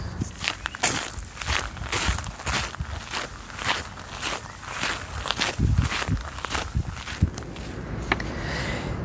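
Footsteps walk steadily along an outdoor trail path, a long run of many even, moderately loud steps that continues without pause and with no talking.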